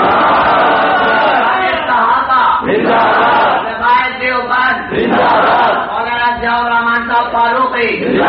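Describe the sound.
A crowd at a religious procession rally roars back a chanted religious slogan, its massed voices shouting in unison in a few long, swelling bursts that stay loud and dense throughout.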